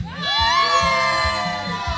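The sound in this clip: Crowd cheering and shouting at a football victory party in Polanco. Many voices yell together in a loud, sustained roar, with higher whoops riding over it, continuously from start to finish.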